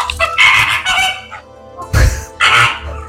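A flamingo gives a few loud, nasal, honking calls in short bursts, with brief pauses between them.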